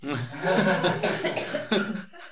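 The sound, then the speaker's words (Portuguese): A person coughs in a run of hoarse, throaty bursts, loud and rough with voiced rasping between them and a final sharper cough near the end. “eu preciso tossir”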